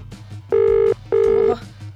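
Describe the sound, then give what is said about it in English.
Telephone ringback tone during a call: two long, steady buzzing rings of even pitch, each lasting under half a second and separated by a short pause, over a low background hum. “It's getting far into the ringtone.”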